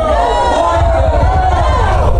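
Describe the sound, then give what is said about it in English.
Crowd noise from a played video of a largely middle-aged, white-haired audience: a loud, steady, dense murmur and roar of many voices that continues unbroken throughout. “Did you hear the crowd in there? And as the camera kind of sweeps around, it's a lot of middle-aged cotton tops,”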